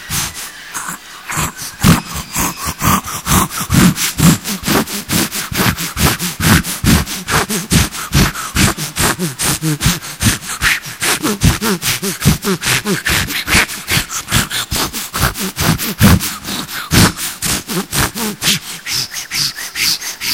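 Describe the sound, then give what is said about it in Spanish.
A voice imitates a handsaw cutting through a wooden board: many rhythmic, raspy back-and-forth strokes repeat steadily and loudly for the whole stretch, each with a rough, scraping rub. “Imitación del serrucho cortando una tabla.”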